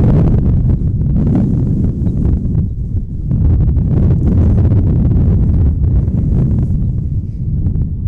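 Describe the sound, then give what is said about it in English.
Strong wind of 20 to 30 mph blows across the microphone at an outdoor softball game. It makes a loud, continuous low rumble and buffeting that fills the whole clip with no pauses. “the wind has really... I mean, it's been blowing hard all day, but it's... Seriously, it's got to be 20 or 30 mile per hour winds right now.”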